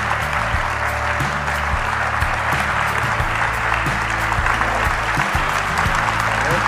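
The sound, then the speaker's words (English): Loud studio audience applause for chef Jacques Pépin on a cooking show: a dense, continuous wash of clapping from many people that stays strong and even from start to finish. “Well-deserved applause, I must say, Monsieur Pepin.”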